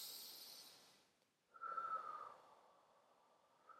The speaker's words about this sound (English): Take a deep breath.